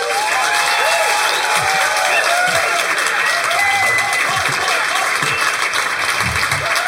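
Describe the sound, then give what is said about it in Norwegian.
Warm applause from a live audience welcoming the head of a mushroom society at a show about mushrooms; loud, continuous clapping with scattered whoops and cheers rising above it throughout. “Gi en varm applaus til mannen som skal guide oss gjennom dette meget underlige universet.”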